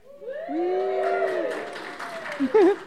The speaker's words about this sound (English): I think that was a clap for being alive.